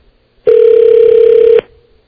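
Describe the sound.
Telephone tone on a phone line: one loud, steady beep lasting about a second at an even mid pitch, alone between short silences.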